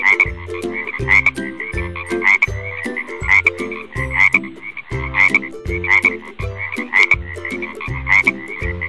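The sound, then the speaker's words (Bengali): Frogs croak at a pond surrounded by plants and flowers: many loud, rhythmic croaks repeat at a steady pace, with deeper pulsing calls underneath and no voices. “সেই পুকুরে থাকত অনেকগুলো ব্যাঙ এবং ব্যাঙেদের পরিবার।”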